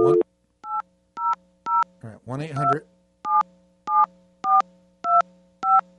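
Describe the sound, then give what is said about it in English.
Telephone keypad dialing tones as a toll-free number is entered: crisp, evenly spaced beeps in two runs, a few before and several after a brief burst of voice in the middle. “So let's dial now. We're going to dial.”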